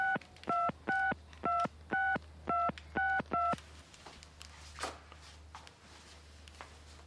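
A telephone number is dialed as a quick run of eight touch-tone beeps at an even pace. Then comes quiet with faint rustling.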